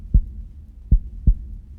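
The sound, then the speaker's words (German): Three low, dull heartbeat thumps sound alone against a faint low rumble. The last two come closer together than the first pair. “Emil konnte Labadis Herzschlag spüren.”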